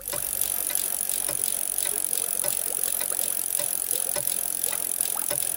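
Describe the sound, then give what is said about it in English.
A bicycle wheel spun by hand, rigged to turn a pumpkin, gives a steady whirring hiss with many quick, regular ticks running through it, alone and with no talk. “And when I turn the bicycle wheel, it will make the pumpkin spin and will turn magically into a stagecoach. I shall now spin the wheel.”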